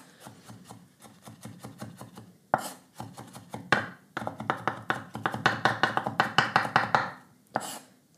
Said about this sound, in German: Ich hack da noch ein bisschen durch.